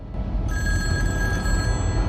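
A wall-mounted kitchen telephone rings with a continuous bright, metallic bell trill that starts after a brief pause and carries on steadily over a rumbling background noise.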